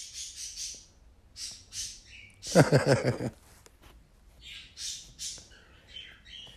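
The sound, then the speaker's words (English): Pet parakeets and other birds squawking and chirping, with repeated short, shrill high chirps throughout and one loud, harsh burst of rapid squawks in the middle. “you might hear my parakeets and birds in the background”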